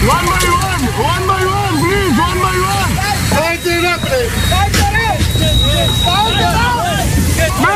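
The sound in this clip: Rumbling boat engine and wind as a harbour rescue boat at Mytilene readies and sets out to sea, a low steady drone beneath loud, urgent voices calling out throughout.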